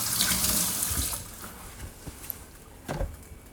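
Tap water runs as hands are washed after cracking an egg. A full, hissing stream fades down, followed by a few faint splashes and knocks.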